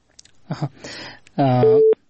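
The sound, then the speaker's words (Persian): After a dropped call from Kunduz province, a short, loud mid-pitched telephone busy tone follows a stretch of talking voice and then cuts off abruptly. “تماس ای دوست ما قطع شد که از ولایت کندوز تماس گرفته بودن”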